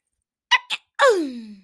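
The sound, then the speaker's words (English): A person performs a deliberately stylised sneeze: two short, sharp intakes, then a loud, drawn-out burst whose voiced pitch falls away over about half a second. “Okay, fine. I'll do the sneeze. Okay, here's the sneeze.”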